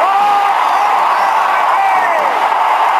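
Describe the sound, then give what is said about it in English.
Baseball stadium crowd at a World Series game roaring and cheering a catch by Willie Mays, a loud, continuous roar with whoops and shouts throughout. “Willie Mays just brought this crowd to its feet with a catch which must have been an optical illusion to a lot of people.”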